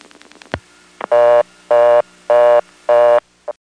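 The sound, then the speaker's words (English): Pulse dialing of 0 on a telephone trunk line, heard as a rapid run of clicks, followed by a reorder tone of four even, loud, buzzy bursts and the brief start of a fifth. “Now that I've been left on the trunk with nothing dialed, I'm going to dial 0, which is a vacant level, and we'll go to reorder.”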